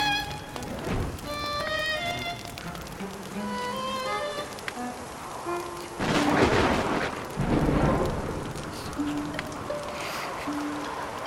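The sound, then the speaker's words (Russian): Thunder booms as lightning strikes a nearby tree during rain, two heavy rumbling bursts rising over a steady wash of rainfall. A soft tonal melody plays alongside. “Молния ударила дерево, стоящее рядом.”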